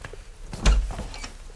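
A door in a shop is opened, giving a single short, dull thump with a brief scrape over a faint, steady background hiss.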